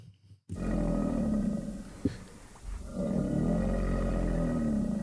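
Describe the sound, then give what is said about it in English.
An alligator growls with a deep, rumbling, sustained roar. It dips briefly near the middle, then swells again and holds steady to the end. “sounds like an alligator growl to me”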